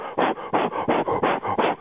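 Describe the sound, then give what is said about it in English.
A voice imitates a golfer's very loud, power-lifter-like breathing during tee shots: many rapid, rhythmic, forceful huffs in a row, loud and breathy, with no words. “He breathes so loud. You can't pick this up on TV. You pick up his movement. But he is, I'll try to do my best imitation.”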